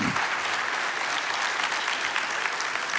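Applause from a church audience at Nineveh welcoming a guest preacher: steady, dense clapping that holds at an even level for the whole stretch, with no voices over it.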